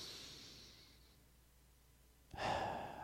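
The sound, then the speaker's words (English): A deep breath taken during a calming pause: soft airy breathing that fades out over the first second, a quiet gap, then a sudden fuller and louder breath that carries on to the end, with no voice. “So let's take a deep breath real quick.”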